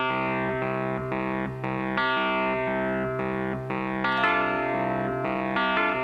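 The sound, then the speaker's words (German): Wurlitzer Electric Piano 200: warm, slightly gritty chords struck in a steady repeating rhythm, each ringing briefly before the next, at a fairly loud, even level. “Da hört man den Wurlitzer-Sound, Wurlitzer Electric Piano 200.”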